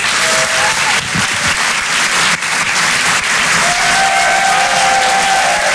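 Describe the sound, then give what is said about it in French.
Loud applause from a theater audience at a live comedy show in Paris, dense and continuous for the whole stretch with a steady, roaring wash of clapping and crowd noise. “Je vous demande de faire un maximum de bruit, s'il vous plaît, pour Richard Sabac.”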